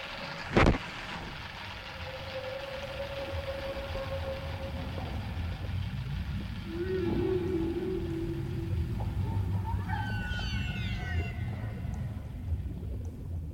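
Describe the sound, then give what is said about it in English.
Massive whales calling near the surface: several long tonal moans at steady pitch, then higher rising calls, over a constant low rumble, with one sharp click near the start. “Massive whales skirt the surface.”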